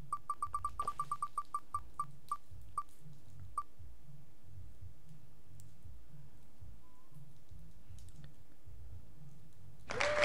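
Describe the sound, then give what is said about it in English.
A spinning prize wheel ticks in a rapid run of sharp clicks that spread farther apart as it slows and stops, followed by a brief burst of noise at the very end. “I'm going to spin the wheel and we'll see who else is going to win a sticker.”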